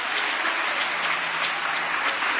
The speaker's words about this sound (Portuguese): Aplausos para o Senhor.